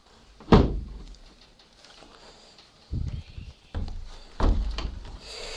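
Windows being shut, heard as a loud wooden thud followed by several duller thumps and knocks with soft rubbing between them.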